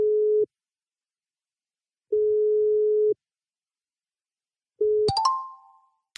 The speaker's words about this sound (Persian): تماس بگیریم روی تلگرام.